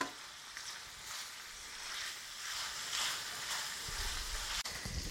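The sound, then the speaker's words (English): Bacon for a quiche Lorraine stirred as it fries in a pan, a faint, steady sizzle and crackle throughout, with soft scraping from the stirring and one sharp click near the end. “So, in case you can't tell by the sound, I'm stirring the bacon in time again.”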